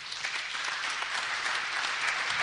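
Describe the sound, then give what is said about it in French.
Congregation at a church service applauding for the Lord Jesus, with a dense, steady burst of clapping that holds at an even loudness throughout. “Acclame très fort le Seigneur Jésus.”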